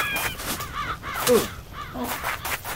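A crow caws in a video game, giving a few harsh, raspy calls in an irregular rhythm over a steady background hum.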